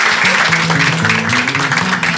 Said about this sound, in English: Congratulations. Give him a nice hand.